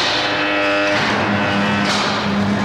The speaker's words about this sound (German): Jetzt kommt der Tisch runter.